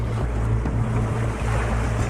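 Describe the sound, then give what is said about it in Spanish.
A boat engine runs on the sea, about to fail, as a steady low droning hum with harmonic bands, accompanied by continuous wind and wave noise throughout. “Les quedan minutos antes de que el motor falle. Y sin motor, él sabe que no pueden dirigir el bote.”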